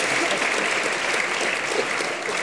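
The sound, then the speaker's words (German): Audience applause, thick continuous clapping from a large crowd, steady and fairly loud, with no pause or clear fade. “Da wird auch geklatscht.”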